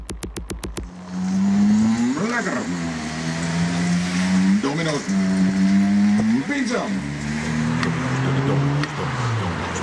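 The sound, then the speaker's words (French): Designed artificial drive sound of an electric delivery scooter, a steady synthetic hum that swells briefly in pitch three times and settles, preceded by a few sharp clicks at the start. “Scooter de livraison, sonorisé par la chaîne Domino's.”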